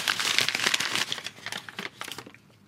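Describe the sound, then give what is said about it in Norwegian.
Wrapping paper crinkling and rustling as a Christmas present is unwrapped during a gift-guessing game, a dense run of bright, rapid crackles that thin out and fade toward the end, with no talk. “Pakk opp gaven din, du.”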